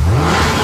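A car engine revs in a brief, loud, throaty burst, its low tone climbing slightly before holding steady.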